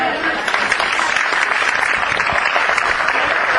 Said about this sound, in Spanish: están presentes y se merecen de verdad un aplauso